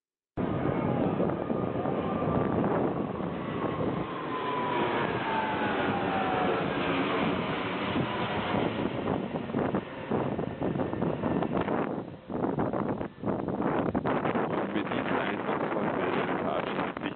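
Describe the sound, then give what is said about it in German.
An Airbus A380 jet roars overhead on its way back to Toulouse. The loud, sustained rumble carries a gliding tone that slowly falls in pitch, with gusty wind buffeting the microphone. “und flog über unsere Köpfe hinweg zurück nach Toulouse. Und wie sich das angehört hat, das hören wir jetzt.”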